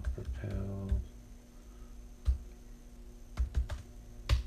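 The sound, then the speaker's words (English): Typing on a computer keyboard, a Google search for a self-propelled small square bale mover: a quick cluster of key clicks at the start, then a few scattered, faint, separate keystrokes. “Let's see here. Type in self-propelled small square bale mover.”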